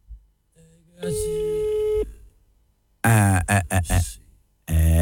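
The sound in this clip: A steady electronic telephone line tone sounds while a number is being dialed. It holds level for about a second, then voices follow.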